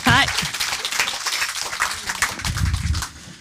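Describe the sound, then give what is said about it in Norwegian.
Audience applause welcomes a novelist onto a Norwegian literature talk show: a dense, steady wash of clapping that runs loud for about three seconds before easing off. “Gi Amalie Kasin Lerstang en kjempeapplaus.”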